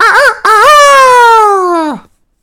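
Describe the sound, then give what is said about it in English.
A human voice imitates a rooster crowing from a beam: a short wavering call, then a long, loud, sustained cry that slides downward just before it stops, heard alone. “The rooster, too, who had been awakened by the noise, and had become lively, cried down from the beam,”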